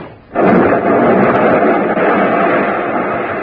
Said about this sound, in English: Blast of powder and gasoline, and she moved back toward the other one.